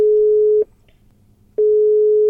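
Telephone call placed from a car stuck in a traffic jam: a loud, steady ringing tone stops, leaves about a second of near silence, then sounds again and continues.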